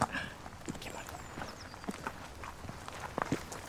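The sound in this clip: Footsteps walk outdoors, a few soft, irregular steps with light scuffs over low background noise, growing a little sharper near the end.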